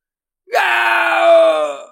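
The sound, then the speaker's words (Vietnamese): A man screams in agony after being cut in half at the waist by a sword, a single loud, sustained anguished cry lasting over a second before trailing off. “Người đó kêu la thảm thiết, đầu lâu của nửa thân trên vẫn còn. Thế nhưng sắc mặt thì lại trắng bệch, cơn đau nhức khiến mặt mày méo mó.”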